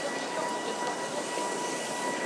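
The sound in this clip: Train at Waterloo station in London, a steady, even rumble and hiss of rolling stock that holds at constant loudness without distinct clanks or squeals.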